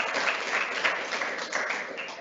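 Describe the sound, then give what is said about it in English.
Audience applause at a live event for a capital management firm forms a dense, even wash of many hands clapping that carries on steadily throughout, with no single voice standing out. “It's one of the nice things about being live. It's the first time I've been cheered for in a long time.”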